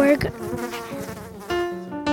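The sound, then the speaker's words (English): A mosquito buzzes in a faint, tonal, wavering drone that comes in a few short bursts, rising and dipping slightly in pitch. “A bee. I think it's actually a mosquito.”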